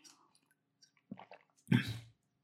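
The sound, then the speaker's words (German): A person takes a sip of a drink: a few faint soft mouth sounds, then a brief louder wet gulp and swallow near the end. “meine Stimme, Entschuldigung, muss mir mal einen Schluck trinken.”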